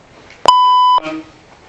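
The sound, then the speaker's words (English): An electronic device beeps once during a lecture: a single loud, steady, mid-pitched tone lasting about half a second, clean and sustained, starting and stopping abruptly, with no talk over it. “That thing just beeped.”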